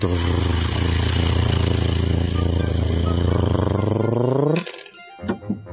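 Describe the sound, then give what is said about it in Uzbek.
A low vehicle rumble, taken for a passing car, holds steady and loud, then its pitch sinks and it cuts off abruptly, followed by a few faint knocks. “Bu dirillash nima edi bu? Qaysi mashinaning yurishi edi?”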